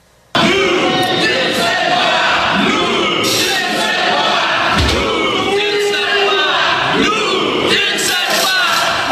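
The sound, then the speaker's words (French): A crowd of nursing graduates at the CHUM hospital shouting at visiting government ministers, including the higher education minister: loud, continuous overlapping yells and chanting voices that never let up after a sudden start. “Ça peut avoir l'air impressionnant des gens qui crient”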